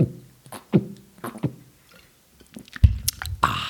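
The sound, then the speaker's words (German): Gulps of Lübzer Naturradler Zitrone, a lemon radler, swallowed from a bottle: a few separate wet, squishy swallowing pulses with quiet gaps between them. “Lübzer Naturradler Zitrone. Ein erfrischender Schluck. Ja. Jetzt hört ihr gleich dieses Geräusch, was man frei übersetzen kann mit Glück, Glück, Glück.”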